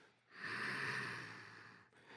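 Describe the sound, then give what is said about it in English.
Heavy breathing during a seated chair exercise: a long, steady breath of breathy airflow, then a brief dip before the next breath begins. No talk is heard. “Inhale. Exhale. Good. Inhale. Exhale. Good.”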